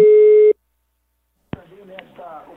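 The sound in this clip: A telephone call tone while a call is placed: one steady, low electronic tone lasting about half a second, then silence, a click, and a muffled voice on the line.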